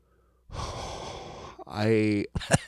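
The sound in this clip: A deep breath: a long, noisy inhale lasting about a second, followed by a loud, voiced, sighing exhale, then the start of speech.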